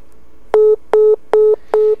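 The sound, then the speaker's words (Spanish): Dropped phone call tone: four short, identical electronic beeps at one steady pitch, spaced in an even rhythm and heard alone with no talk. “se fue la señal. Se cortó la llamada”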